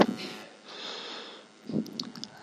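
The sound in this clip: A deep breath drawn in through the nose during a breathing exercise before chanting Om, a soft, airy rush that swells and fades, followed by a brief fainter breath sound.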